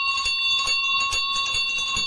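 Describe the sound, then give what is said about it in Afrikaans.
A school bell rings in a steady, shrill electric tone with a buzzy, rattling texture that holds throughout without a break. “Die skoolklok lui en almal gaan in die klaskamer in.”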